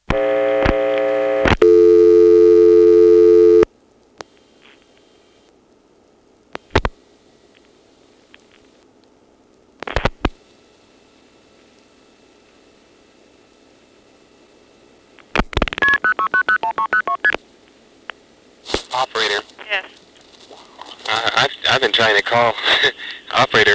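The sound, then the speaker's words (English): A telephone dial tone hums steadily at the start, then gives way to a few isolated clicks as the operator is dialed, followed by bursts of muffled line noise and faint voices. “I've heard operator background noise, but no operator.”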